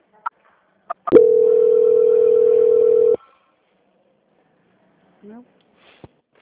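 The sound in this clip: Telephone call-transfer tones: a few sharp clicks, then a steady mid-pitched tone held for about two seconds, followed by a short rising chirp and a final click.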